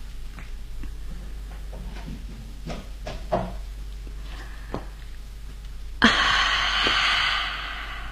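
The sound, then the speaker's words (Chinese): A window being opened in a small cottage: a few soft knocks and thuds, then a sharp clunk followed by a sustained airy rush, over a steady low hum. “把窗户打开。 哦，好， 让风吹进来吧。”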